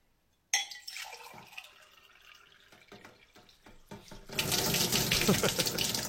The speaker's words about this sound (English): the joke is one glass is bigger than the other, and he's pouring a big glass into the small glass